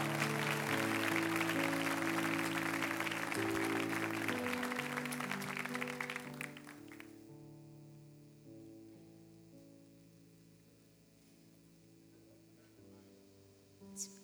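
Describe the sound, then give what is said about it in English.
An audience applauds as a pastor is welcomed onto the stage. The clapping is dense and steady at first, then dies away about halfway through, leaving soft sustained musical chords that carry on to the end. “Why don't you put your hands together and welcome to the stage, Pastor Corey Bendix.”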